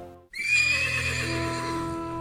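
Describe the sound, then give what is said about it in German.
A horse neighs once, loudly, after a brief silent gap, a long shrill whinny that slowly fades out. The horse is hitched to a cart leaving a mill. “Kurze Zeit später verließ ein Pferdefuhrwerk mit grausiger Fracht die Mühle in Richtung Hiller Moor.”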